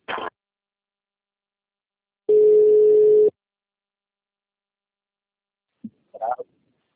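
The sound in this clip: A steady telephone tone plays while a call is transferred to the CredSexta customer relationship line: one loud, low, unbroken beep lasting about a second, set between long silences, with short clipped sounds near the start and end.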